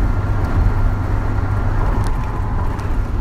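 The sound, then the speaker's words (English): Continuous low road rumble inside a car driving north on the I-5 highway, steady and fairly loud with no clear breaks. “I'm driving north on I-5, coming back from Cave Junction. It's a Thursday, heading towards Eugene.”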